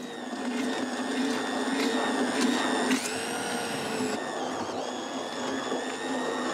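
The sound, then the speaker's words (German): A blender purées freshly caught fish for a fermented fish-sauce fertilizer, giving a loud, steady motor whine with a rich buzz. The pitch jumps briefly partway through, then settles back into a constant drone. “Der Fisch lagert mehrere Wochen in der Tonne und fermentiert. Doch vorher wird er püriert.”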